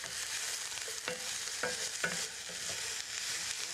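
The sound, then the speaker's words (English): Fresh onions and garlic sizzle in a frying pan, a steady bright hiss broken by a few soft knocks of stirring, with no voices. “the smell of fresh onions and garlic cooking is just beautiful.”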